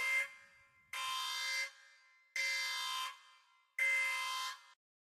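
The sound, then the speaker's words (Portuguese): An alarm buzzer sound effect for a criticism alert blares in four harsh, even bursts, the first cut short, each separated by brief silence. “Pronto, alerta de crítica.”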